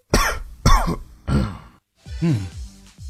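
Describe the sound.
Three sharp, loud coughs come in quick succession, then a pause and a longer, voiced throat-clearing rasp with no talk around them.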